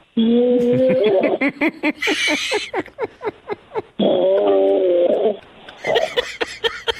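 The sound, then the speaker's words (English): An elk bugles twice. Each call is a long, high, whistling note that rises and wavers, followed by a rapid run of loud, grunting chuckles. “Elk. That sounds like it's prehistoric there.”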